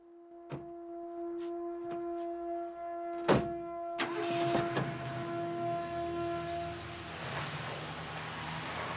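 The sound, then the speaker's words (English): A car pulls away from outside a store: a steady engine drone with a few sharp knocks and clicks early on, then a broad rushing noise swells in about midway and holds to the end. “She gets back into her car and pulls away.”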